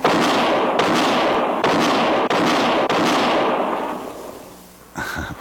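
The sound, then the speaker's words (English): Handgun shots crack out during a quick-draw shooting contest. Several loud, sharp bursts come in quick succession, each with a long ringing tail, and one more shot follows after a short pause. “that's mighty fine shooting”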